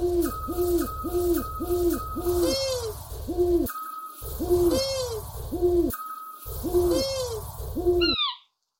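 Owl hoots from a scops owl, a long-eared owl and an eagle owl: many repeated low, rounded hoots in three runs split by brief silences, with higher wavering calls over them and a few high notes at the end.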